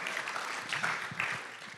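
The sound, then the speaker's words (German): Applause from a church audience during a service, a moderate, fairly soft patter of many hands that stays even before easing slightly at the end. “Lass uns doch Gott mal einen Applaus geben, dass das die Dinge sind, über die wir uns Gedanken machen.”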